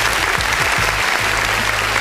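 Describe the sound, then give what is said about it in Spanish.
Steady applause, a dense, even wash of many hands clapping at full loudness from start to finish, with no pauses or build. “les quiero mandar un tremendo, tremendo aplauso, muchachos.”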